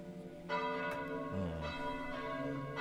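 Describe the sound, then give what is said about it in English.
A church bell rings like an alarm bell, with a few overlapping strikes that leave long, sustained metallic tones. The ringing is steady and fairly loud, and no one talks. “You start to hear like a church bell ding. And almost like an alarm bell of sorts.”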